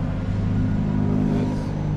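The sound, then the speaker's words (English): ATVs and UTVs drive on residential roads in Moab, giving a steady, low, throbbing engine rumble that holds at an even loudness throughout, with no voices. “The sounds of ATVs and UTVs driving on local residential roads, completely legal and protected under state law.”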